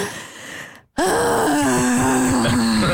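A man vocally imitates someone breathing loudly during a yoga class: a quick intake, a brief pause, then a long drawn-out groaning exhale at a fairly steady pitch.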